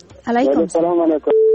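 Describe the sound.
A telephone line tone marks a caller connecting to a radio phone-in show. A steady, pure electronic beep follows a brief burst of talk.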